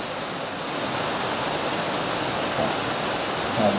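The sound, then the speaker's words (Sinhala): A stream of flowing water gives a steady, rushing hiss of moving water, continuous and even throughout. “දැන් ඇලේ සද්ද කියලානේ අපි ගන්න ඊළඟට. ඔය ඇහෙන්නේ ඇලේ සද්ද.”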